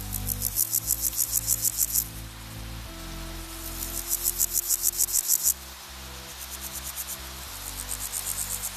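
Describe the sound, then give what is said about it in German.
An insect chirps by rubbing its forewings together, producing rapid pulsed trills in several bursts with short pauses between them, over a faint low steady hum. “Geigenspiel, so als würde ein Bogen über eine Saite streichen. Hört sich bei dem Insekt so an.”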